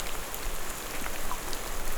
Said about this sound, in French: Une toute dernière prise de son, quasiment à ce que là, l'humidité, la pluie